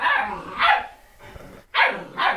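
Sharp, high yapping barks from a puppy come in loud, quick bursts separated by a short quieter gap, with no voices over them.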